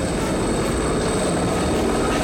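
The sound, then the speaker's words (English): Two helicopters fly low over a cornfield, their rotor and engine noise forming a loud, dense, unbroken roar that holds steady throughout. “Two helicopters follow.”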